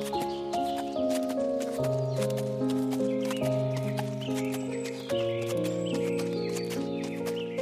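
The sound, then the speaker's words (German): Slow clip-clop hoofbeats of a unicorn walking carefully across a field, a steady, even tread over sustained, layered music notes. “Nachdem das Einhorn aufgestanden ist, läuft es vorsichtig über das Feld.”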